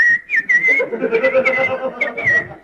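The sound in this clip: A person whistles a melody while ironing clothes, with clear high sustained notes and sliding phrases held over a steady low background rumble.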